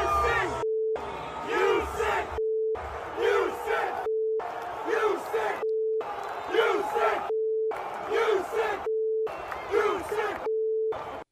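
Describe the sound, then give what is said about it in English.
Jacksonville Jaguars fans chant at a preseason home game against the Browns, directing a profane taunt at an opposing player. The loud, rhythmic crowd chant repeats in about eight bursts separated by brief pauses. “Breaking out a quote, "you sick bleep" chant during a preseason game really is next level.”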